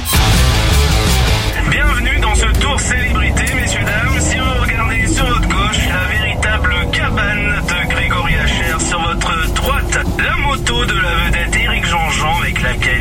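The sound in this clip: A car is driven through bends with a chauffeur at the wheel. A steady, loud engine and road rumble run throughout, while voices talk over it.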